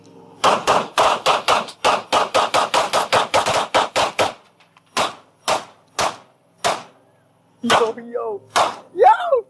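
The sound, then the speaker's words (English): Gunfire as a magazine is emptied into an alligator in the Florida Everglades: a rapid volley of many loud, sharp shots, then a few slower, spaced shots. Voices follow at the end. “So this was him in Florida, in the Everglades, as he calls it, mag dumping into an alligator.”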